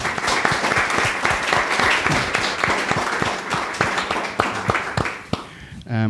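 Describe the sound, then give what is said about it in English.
Warm audience applause welcoming a guest to the stage at a live event. Dense, steady clapping holds for about five seconds, then thins and fades, and a voice begins at the very end. “So I would love for you guys to give a big round warm welcome to my wife, Hannah Courtauld.”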